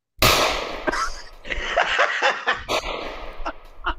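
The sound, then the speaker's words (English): A .22 gunshot gives a sharp, loud crack, followed by a few more quick pops and bursts of noise over the next few seconds. “That's the 22 shot right there.”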